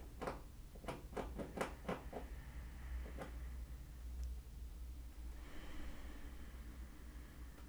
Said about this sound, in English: The squirrels are literally trying to get into my house right now. I don't know if you guys can hear that in the background.